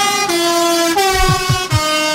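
A truck drives past blaring its air horn: loud, sustained, harmonic blasts that shift slightly in pitch, over a low rumbling engine.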